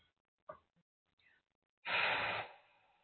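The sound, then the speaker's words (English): A single deep breath taken during a guided talk about letting emotions move through: a loud, airy rush of breath lasting about half a second, after a few faint small sounds. “I'm going to take a nice deep breath.”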